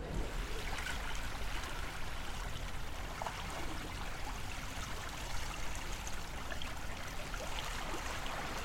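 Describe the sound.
Water of the Isère river flowing: a steady, dense rushing wash that holds an even level throughout, with no breaks and no voices.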